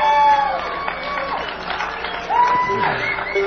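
An audience at a bluegrass set applauds and cheers to welcome a fiddle player, with loud whoops and calls rising over the clapping throughout.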